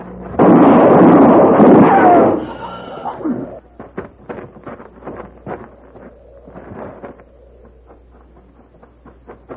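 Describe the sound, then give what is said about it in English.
A loud gunshot ends a tense standoff in a western scene: one harsh, sustained blast of about two seconds, followed by a run of quieter sharp clicks and knocks. “You shot him. Yes, ma'am. He's dead.”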